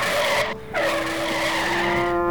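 A truck's tires skid as it brakes to a sudden stop on a street: a loud, sustained squeal with a steady tone, briefly dipping early on before continuing to the end.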